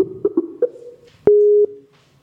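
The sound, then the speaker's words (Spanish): Telephone ringing tone heard while placing a call: a single steady electronic tone lasting under half a second, preceded by a few short, lower blips. “Ahí ya está dando llamada.”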